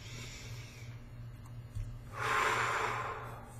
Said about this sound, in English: Take a deep breath.